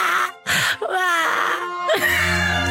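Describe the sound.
A baby crying: loud, wailing and whimpering cries with a wavering pitch, coming in a few drawn-out bursts.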